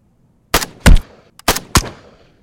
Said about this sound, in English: hit their mark. A perfect headshot on the guard that was shooting from behind the desk.